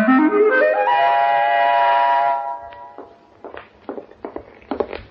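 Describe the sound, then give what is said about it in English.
Footsteps going down steps: a run of several soft, uneven thuds in the second half, following a sustained harmonic tone that rises in pitch and then holds. “Take it easy going down them steps, baby.”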